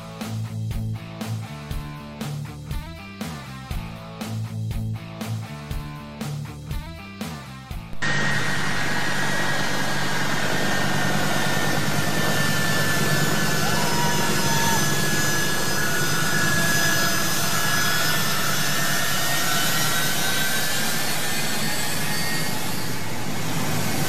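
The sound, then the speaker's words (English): An American C-17 military transport jet takes off from Kabul airport, a loud, continuous jet roar that cuts in abruptly after a rhythmic, musical opening and holds steady to the end. “That's an American C-17 taking off from the Kabul airport.”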